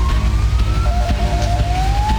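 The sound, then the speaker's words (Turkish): An ambulance siren on rain-flooded streets: a loud wailing tone that rises slowly, breaks off, then climbs again, over a dense low rumble of traffic. “Aracıyla birikintide mahsur kalan bir kişinin imdadına ambulans yetişti.”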